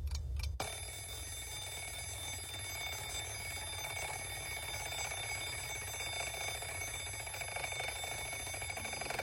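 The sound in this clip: An alarm clock rings to wake someone up: after a brief moment of quiet, a loud, steady electronic ring starts and continues without a break to the end.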